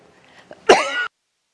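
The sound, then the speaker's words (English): A single loud, harsh cough, one hoarse burst under half a second long, preceded by a few faint small sounds and followed by silence. “I can sense my cough is going to return”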